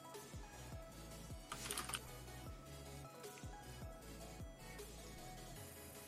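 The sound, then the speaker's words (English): Keys clatter on a computer keyboard: fairly quiet, steady tapping over a continuous background sound, with no talking. “I know y'all hear me. You're over here hearing me type like my name is Olivia Pope or whatever, right?”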